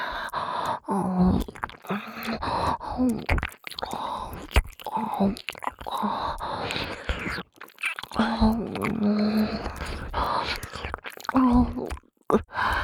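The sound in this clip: Gentle ASMR nibbling on the soft outer ear, close and continuous wet mouth sounds mixed with breathy whispers and soft moans.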